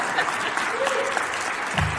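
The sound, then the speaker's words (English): Audience clapping at an evening gathering, a steady patter of many hands at moderate level that continues evenly, with a brief low thump near the end. “So you might have to clap to get the tech for the guys.”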